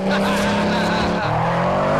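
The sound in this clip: Car tires skid as the car swerves off the road onto a dirt verge. A loud, sustained squeal with engine tone runs throughout and drops in pitch about halfway through.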